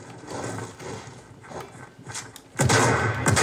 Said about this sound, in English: Oof, got shotgun in the back, but.